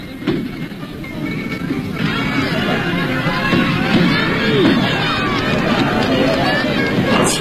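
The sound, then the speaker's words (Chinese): A crowd cheers and laughs at a horse racecourse during an annual racing festival, a steady, loud wash of babbling voices and shouts that builds slightly and holds without pause. “赛马场上聚集了很多人，大家欢呼着笑着，这是他们一年一度的节日。”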